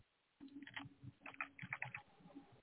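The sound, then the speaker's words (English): Keys clack on a computer keyboard as a book title is typed in, a run of many quick, irregular strokes in bursts with brief pauses, moderately loud and alone. “Type that in.”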